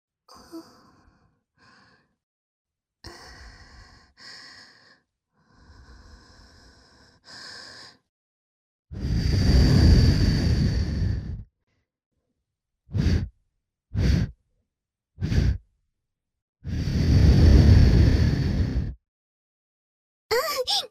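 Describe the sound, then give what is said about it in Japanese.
Breath blown gently into an ear: after a stretch of quieter breathy sounds come two long, airy blows and three short puffs between them, each a soft, rushing hiss separated by silence. “それじゃあまずは、お耳の穴、ふうふうしてあげるね。”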